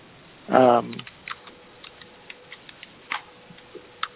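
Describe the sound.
Light computer-keyboard typing during a meeting follows a brief voice. Sparse, faint clicks and taps come in an irregular rhythm.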